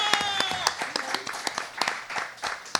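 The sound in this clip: Audience applause at a live comedy show: many overlapping claps form a dense, fairly loud and steady clatter that carries on throughout.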